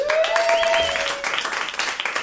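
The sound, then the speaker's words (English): Audience applause and clapping welcoming a comedian to the stage at a comedy show, a dense and steady wash of many hands that stays loud throughout. “Put your hands together for Jen Scott.”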